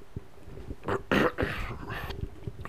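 Someone clears their throat with a few brief, rough, raspy bursts clustered close together, moderately loud over a faint low background hum.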